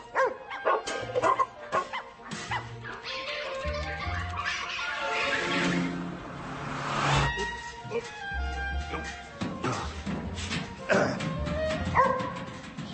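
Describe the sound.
A dog barks and yips repeatedly in many short, sharp bursts, with some whimpering between them, amid other busy background noise.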